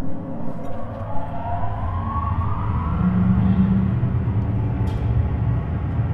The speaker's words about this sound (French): Alors on va faire fonctionner la ventilation.